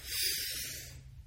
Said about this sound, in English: we do so by taking in a big, deep breath. Let's do that together.